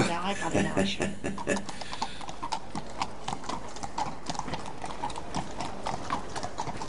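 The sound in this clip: A small horse's hooves clip-clop in a steady, even rhythm of sharp, evenly spaced knocks that runs right through, moderately loud over a low background.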